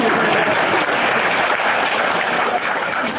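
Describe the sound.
Audience applause fills the whole stretch, a dense, steady patter of many hands clapping at an even, fairly loud level without pauses or voices above it.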